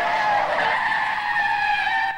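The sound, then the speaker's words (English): Tires screech as a car reverses and spins around, a loud, sustained high-pitched squeal lasting about two seconds without a break. “The lights go green and Needles shoots off. Marty reverses and spins around.”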